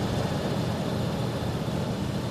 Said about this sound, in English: Philo drives Orville's truck along a highway, with Ma sitting between him and Orville.